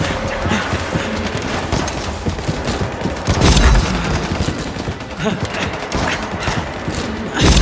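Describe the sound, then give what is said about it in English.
Rapid gunfire in a dramatised fight scene, a dense, loud volley of shots mixed with heavier thumps, sustained with little letup throughout. “What sort of gun is that? A very good one, but sadly it won't hold them back forever.”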